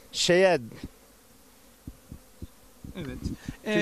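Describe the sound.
Honeybees buzz as they work busily at their hives. A faint steady drone carries scattered light clicks, and louder close buzzing passes come at the start and the end.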